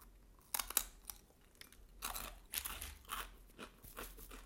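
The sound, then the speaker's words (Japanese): Crispy homemade baked cheese crisps crunch as they are bitten and chewed: many quiet, sharp, brittle cracks in uneven bursts, with no talking. “チーズのいい香りでこれをあとはもうパリパリして食べるだけです”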